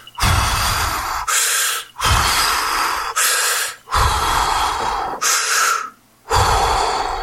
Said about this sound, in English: Deep breaths.